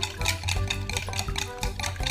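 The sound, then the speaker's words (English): Whisk beating liquids together in a bowl, a rapid run of many repeated strokes that splash and clatter steadily at an even, moderately loud level. “now that we have all the liquids in the bowl, we can again use our whisk and whisk them all together.”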